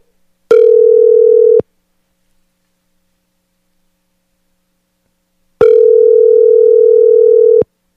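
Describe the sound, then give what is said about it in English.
Ringback tone of an outgoing phone call gives two steady, buzzy rings separated by a few seconds of silence, the first ring shorter than the second. “I'm going to call him. If he answers, he answers.”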